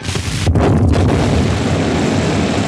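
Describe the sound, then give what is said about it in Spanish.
Gasoline tanks explode in a wrecked airplane, turning it into a huge blaze. The blast is a heavy, continuous roaring rumble that stays loud and dense for nearly three seconds. “la gasolina estalla, convirtiendo el avión destrozado en una gigantesca hornaza.”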